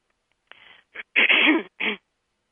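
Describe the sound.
A person clears their throat in a few short, rasping bursts. The longest and loudest burst comes in the middle, with no other sound around them.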